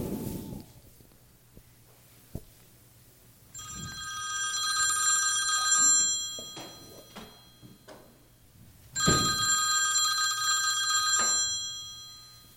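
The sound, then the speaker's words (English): A telephone rings after a number is dialled to a food pantry, in two bright trilling bursts separated by a pause. A faint click comes before the first ring. “Now to dial the last food pantry.”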